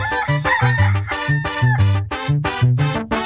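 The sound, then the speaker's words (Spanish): A rooster crows in a loud, harmonic, repeated call over a steady rhythmic musical beat with low bass notes, and no talk is heard. “canta como el gallito”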